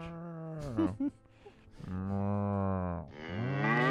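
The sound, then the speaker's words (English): A cow mooing sound effect: a few loud, drawn-out, low moos with strong tonal harmonics. A short moo falls in pitch, a long steady one follows, and a final moo rises at the end. “I was just playing random cow sound effects.”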